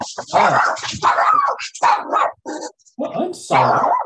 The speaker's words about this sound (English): Sorry, there is a knock on the door, but I'll just have to leave it. That's my dog.